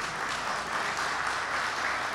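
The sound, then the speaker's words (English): Audience applause during a talk, a dense and steady wash of clapping that holds at an even level for the whole stretch with no voices over it. “So I'm going to gauge from that applause that that's many of us here.”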